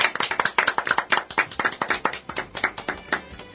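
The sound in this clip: Many sharp claps open a live Japanese talk event about job hunting and work, marking its 406th session. They come in a quick, fairly steady rhythm, loud and on their own.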